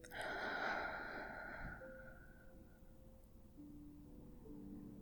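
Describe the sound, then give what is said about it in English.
A slow, deep breath drawn in during a guided breathing exercise: a soft, airy rush swells and then tapers over about two seconds, followed by quiet, faint low tones. “So breathe in with me again.”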